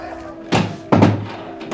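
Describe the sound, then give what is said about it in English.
A door being shut in a dorm room gives two dull, heavy thumps close together, the second slightly louder, against a quiet background. “Back in the dorm room, Ned shuts the door and trudges over to his bed in dim light.”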